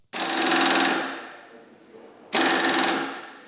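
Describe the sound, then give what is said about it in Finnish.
A nut wrench buzzes while a tow hitch is fitted to a hybrid car in Vantaa. Two loud, harsh whirring bursts are heard; the first tapers off slowly before the second starts abruptly. “Vetokoukkua asennetaan hybridiautoon Vantaalla. Mutterin väännintä tarvitaan, vaikkakin koukun asennuksessa nykyisin suurin työ on usein auton sähköisten järjestelmien ohjelmointi.”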